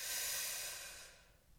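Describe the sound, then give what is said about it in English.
A single long inhale through the nose during a guided breathing exercise, a steady airy hiss that starts strong and slowly fades away over about a second and a half, with no talking. “So let's breathe in through the nose.”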